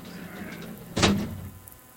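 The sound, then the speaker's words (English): A big, heavy door shuts with a single loud thud partway through, followed by a brief resonant decay. The moments before are quiet. “All right, let's get the big ass door.”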